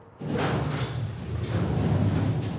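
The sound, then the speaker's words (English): A lift door slides open with a steady, broad rushing rumble that starts abruptly and holds fairly even in loudness for a couple of seconds, with no voices. “The lift door slides open and Jackie steps out.”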